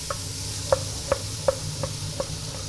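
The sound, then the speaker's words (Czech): Root vegetables (carrot, celery and parsley root) fry in pan drippings with a steady soft hiss, punctuated by a few small, evenly spaced pops or ticks. “Na tom výpeku teď opečeme kořenovou zeleninu. Mrkev, celer, petržel.”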